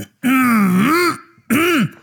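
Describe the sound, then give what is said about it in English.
A man clears his throat in two loud, voiced, rasping bursts, the first long and drawn out, the second shorter, with no talk around them. “he's doing the clearage of the throat.”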